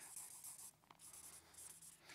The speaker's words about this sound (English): And that is, let me draw my arrow here,